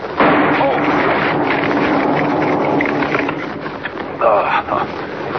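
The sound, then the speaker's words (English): A dynamite blasting charge wired to a huge tree goes off in a sudden loud roar. The roar holds for a few seconds, then eases, and a brief second burst flares near the end. “Wired that tree to a blasting charge. Blew up right in my face.”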